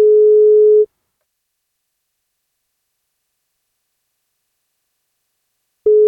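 Telephone ringback tone from a call being placed: a steady, mid-pitched beep, then about five seconds of silence, then the same beep starting again at the end.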